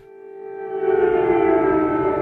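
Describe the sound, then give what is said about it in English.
An air raid siren wails in wartime Dnipro with a loud, steady, harmonically rich tone. It swells in volume over the first second, then holds level to the end. “In Dnipro, the air raid sirens are never quiet for long.”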